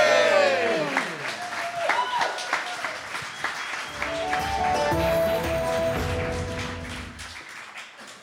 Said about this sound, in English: And there was much rejoicing. Yay!